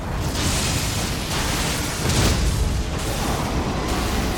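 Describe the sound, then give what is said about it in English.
A nuclear bomb attack erupting in a video game fight, with a loud, sustained roaring blast that swells in a few heavy surges of rumbling noise. “He keeps healing and keep being nearly zero. He's doing the nuclear bomb.”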